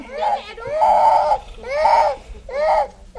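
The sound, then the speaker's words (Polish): A child cries beneath a baobab tree in a village among a small group of children, letting out a few loud, high, drawn-out wailing bursts separated by brief breaks for breath. “Pod baobabem grupka dzieci. Jedno płacze, widząc poruszenie naszym przyjazdem.”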